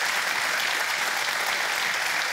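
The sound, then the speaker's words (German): Applause from a crowd fills the whole stretch, a dense, continuous patter of clapping that stays even in loudness throughout, with no voices over it. “der Applaus geht zu Ihnen nach Bohmte”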